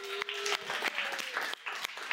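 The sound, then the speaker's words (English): Audience applause at a church gathering, honoring a grandfather in the crowd: dense, steady clapping with a few brief dips in loudness, heard alone. “would y'all give a round of applause?”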